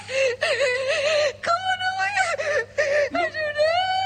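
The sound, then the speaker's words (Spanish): A woman crying: high, wavering wails and whimpers in several drawn-out bursts broken by sharp catches of breath. “No, mamá, no llores.”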